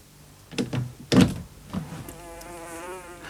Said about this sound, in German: Oh, Wetter, da gebe ich nicht acht und meine Fliege schlüpft hinaus. Nun hat sie, was sie haben wollte, Freiheit.